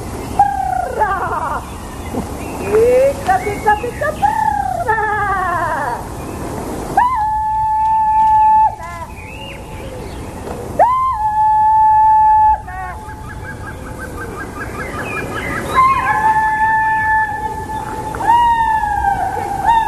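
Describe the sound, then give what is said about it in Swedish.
Kulning, the Swedish herding call, rings out as sung in Nyckelviken: several long, high, clear held notes with gliding attacks and bright overtones, broken by short pauses, with shorter swooping vocal phrases at the start. “Varje år i maj så har vi kulning här i Nyckelviken, arrangerat av oss på Kulturhuset i Sverkstan.”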